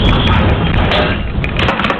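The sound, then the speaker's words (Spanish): An earthquake rumble in Gonjar, Granada, captured by home security cameras: a loud, continuous low roar with grinding rattle that holds steady throughout. “És el que ocasiona el segon terratrèmol a la província de Granada en pocs dies, i els veïns ho han sentit així.”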